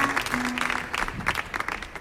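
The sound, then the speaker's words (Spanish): Audience applause rises and dips in uneven bursts of clapping, moderately loud, with individual claps standing out against the crowd. “Un aplauso para este gran danés.”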